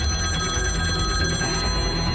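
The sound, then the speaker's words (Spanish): Telephone ringing with an incoming call, a continuous bright electronic ring with steady high overtones, heard alone over a dense, noisy background. “ya tengo la primera llamada”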